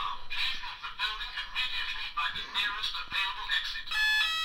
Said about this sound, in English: That's the fire alarm in my room. Are you safe, Ewan? I think it's just test day. Let's see if it goes off.